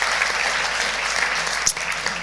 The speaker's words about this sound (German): Komm, lass uns mal Jesus einen Applaus geben, der ihm gebührt.